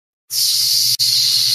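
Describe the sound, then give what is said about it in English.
A pneumatic hiss as a mechanical chest piece opens: after a brief silence, a loud, steady, high hiss with a low hum beneath it. There is one short break near the middle. “with a little pneumatic hiss, you see a part of this chest piece”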